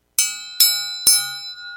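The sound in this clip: Three bright, evenly spaced strikes of a bell mark the start of a round. Each is a sharp metallic ding with a ringing tail that slowly fades, and no voices are heard.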